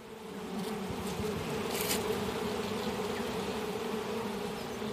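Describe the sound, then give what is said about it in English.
Honeybees buzz densely around an open hive at a beekeeping club day, a steady, continuous hum of many wings at moderate loudness. “It's a club day for the Wellington Beekeepers Association, and about a dozen would-be apiarists are getting an up-close look at a hive, some of them for the very first time. These are drones”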